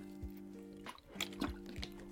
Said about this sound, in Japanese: 一旦水飲みますねすいません